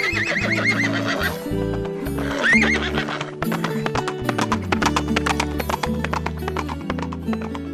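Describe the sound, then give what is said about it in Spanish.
A horse sound effect standing in for a unicorn gives two shrill whinnies, then galloping clip-clop hoofbeats that run steadily to the end, all set over music. “La emoción del unicornio fue tanta que sus ojos brillaban como nunca y salió galopando del bosque hacia la pradera.”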